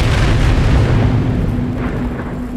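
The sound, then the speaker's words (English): A massive explosion on an upper floor of a mansion blows out the windows. A loud, continuous, deep rumbling roar holds steady and eases only slightly toward the end. “you see it, because you're outside. A massive explosion”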